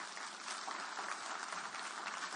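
A church audience claps in dense, even applause that holds steady throughout and stays fairly faint.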